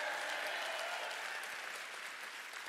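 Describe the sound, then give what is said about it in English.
Church audience applauding during a Sunday morning service, a steady, quiet patter of many hands clapping that eases off slightly toward the end. “Come on, if you believe that God's not done with you yet, can you make some noise in the house this morning?”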